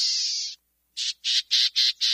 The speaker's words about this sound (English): the equally small black-tailed gnatcatcher puts it like this.